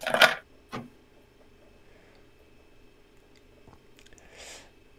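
Someone drinking water makes faint, wet gulping and mouth sounds: two short swallows near the start and a softer one at the end, with near silence between.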